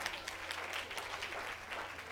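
A church audience applauds with faint, dense, continuous clapping throughout. No voices stand out.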